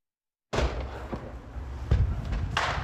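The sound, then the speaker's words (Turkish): Explosions from a burning recycling-materials warehouse at a factory: a sudden loud roar of fire noise begins, broken by a few heavy, muffled thumps and bangs. “Fabrikanın yanan deposunda zaman zaman patlama sesleri de duyuldu.”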